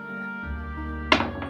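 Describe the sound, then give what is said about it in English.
A fancy six-sided die rolled for a tabletop game, a short clatter of two quick knocks over a steady low hum. “Amy, could you roll a d6 for me, please? I certainly can. I'll roll the fancy d6.”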